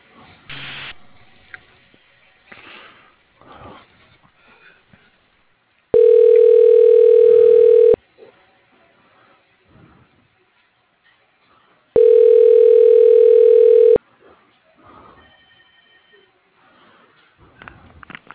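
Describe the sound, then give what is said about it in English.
Telephone line tones sound during a call transfer: two long, steady, mid-pitched tones of about two seconds each, separated by stretches of quieter line noise with faint, thin voices, all with a narrow phone-line quality. “Okay, yeah, I'll just transfer this call. You can leave a voicemail.”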